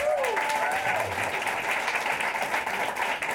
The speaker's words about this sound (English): I'm glad you clapped a little bit less for him because he's not here.